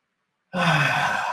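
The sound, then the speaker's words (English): A single deep, loud breath taken during a breathing exercise with the arms twisted back. It begins abruptly after a moment of silence and stays airy, breathy and sustained to the end. “can you connect with your breath and take three massive breaths, expanding your rib cage while you expand and twist your arms back? Three massive breaths.”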